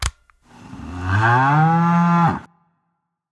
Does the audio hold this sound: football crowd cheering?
no

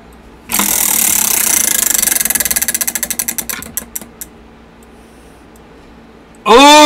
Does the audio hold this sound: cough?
no

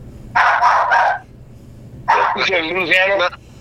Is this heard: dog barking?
yes

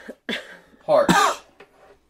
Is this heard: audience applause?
no

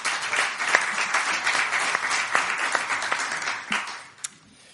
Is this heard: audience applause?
yes

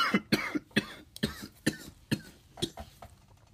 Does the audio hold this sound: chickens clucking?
no

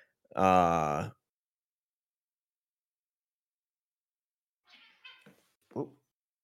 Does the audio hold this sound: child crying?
no

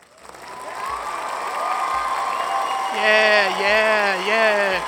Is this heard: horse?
no

